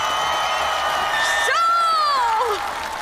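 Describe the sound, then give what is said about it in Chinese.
A crowd cheers and shouts in support of a dance team at a live competition: a loud, sustained roar of many voices with high whoops and whistle-like cries rising above it for about three seconds. “支持新一街舞蹈团的呐喊声”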